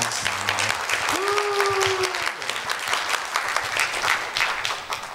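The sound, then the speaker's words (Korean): Applause from a church audience for a young woman who has just spoken: dense, sustained clapping that stays strong throughout, with a brief voice briefly rising above it near the middle. “예나 자님, 한번더큰 박수 부탁드립니다.”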